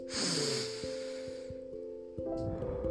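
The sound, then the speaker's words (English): A deep breath drawn in during a guided breathing exercise, a soft airy rush lasting over a second, with gentle sustained musical tones continuing underneath and a fainter breath sound near the end. “Just breathe. Breathe in.”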